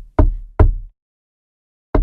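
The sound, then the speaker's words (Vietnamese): Steady knocking: three dull, solid knocks with a low thud, two close together and then one after a long pause, each decaying quickly into silence. “Tiếng động vẫn đều đều. Cộc, cộc.”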